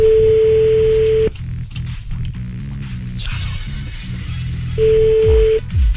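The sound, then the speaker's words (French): A telephone call being placed to a brother, with a steady tone at the start, a series of short tonal blips in the middle and the steady tone returning near the end. “Allez, on appelle le frangin, c'est parti.”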